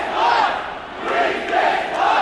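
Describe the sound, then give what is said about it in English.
Hundreds of protesters chant slogans in unison at a peaceful election protest in a St. Petersburg park, making a loud massed roar of voices that swells and dips in a steady rhythm. “Some of the crowd march towards the city centre. They're chanting, "We are the power here," and "Putin is a thief."”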